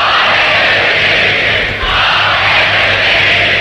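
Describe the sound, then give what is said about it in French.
A large crowd cheers the newly crowned queen at a coronation, a dense and steady roar that stays loud and unbroken for several seconds. “Acclamant Élisabeth II, les pères du royaume ont coiffé leur coronet.”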